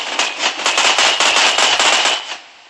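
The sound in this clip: Rapid automatic gunfire from a battle in the Roblox video game: one dense, loud, continuous burst of many fast shots that fades out at the end.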